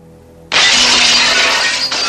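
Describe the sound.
A hammer smashes a smoked glass door in a dentist's office: after a low, faint hum, a sudden loud crash of shattering glass breaks out and continues as a dense, bright spray of breaking glass, briefly dipping near the end.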